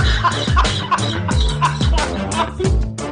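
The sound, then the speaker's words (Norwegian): A hen clucking over and over, loud, throaty clucks in a steady, quick rhythm that runs throughout. “Men eh, høna klarer sikkert å lukte seg fram til kornet, da.”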